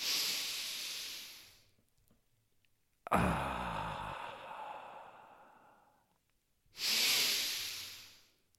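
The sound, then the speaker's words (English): Deep, slow breaths taken during a guided breathing and pelvic-floor exercise: three long, airy rushes of breath separated by short silences, the middle one rougher and more voiced, like a heavy sigh. “So take a deep inhale.”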